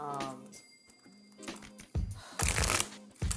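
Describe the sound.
Tarot cards shuffled and drawn during a Leo reading: a few brief papery riffles and slaps follow a short voice, fairly faint overall.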